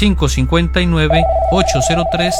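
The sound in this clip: An incoming call rings in on a radio call-in show. A steady, even tone starts partway through and holds under continuous talk.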